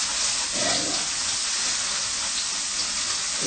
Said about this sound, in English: So I wash my salad again. I mean, for the last time now, yeah?